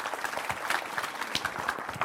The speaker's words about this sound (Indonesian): Tepuk tangan untuk Mas Iman, monggo nyun sewu.